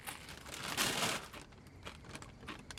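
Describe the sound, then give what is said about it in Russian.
A woman eating potato chips: crisp crunching and crinkling, loudest in a short burst early on, then softer, intermittent crunches that stay quiet throughout. “Она жует и улыбается. Она ест следующий чипс.”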